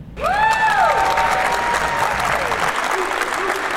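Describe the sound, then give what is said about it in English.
Basketball fans applaud and cheer to welcome the new head coach of Marshall women's basketball. Loud, continuous clapping comes with a couple of rising whoops near the start, then steady applause holds to the end. “That was the sound of fans welcoming Kim Stevens as the eighth head coach of Marshall women's basketball.”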